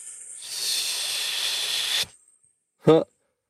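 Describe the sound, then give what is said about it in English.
A long, steady exhaled hiss done as a compressive breathing warm-up lasts nearly two seconds after a softer lead-in breath, then cuts off, and a short voiced sound follows after a pause. “just a long hissing sound kind of helps to set up the right style of compressive breathing”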